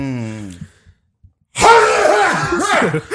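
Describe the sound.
A loud sneeze bursts out suddenly after a brief vocal sound and a moment of silence, followed by voices.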